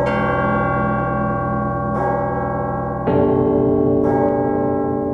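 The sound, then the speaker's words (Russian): Church bells ringing on an October morning in Moscow, a rich sustained peal with layered tones, where fresh strikes land every second or so over the steady hum. “Колокола звонят”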